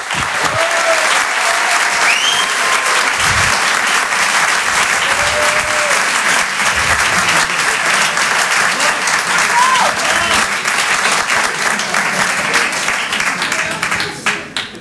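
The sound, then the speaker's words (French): Loud, sustained audience applause greets a performer at a live show, with dense steady clapping mixed with a few whistles and cheers, then tapers off at the very end. “Faites du bruit, s'il vous plaît, pour Julien Santini.”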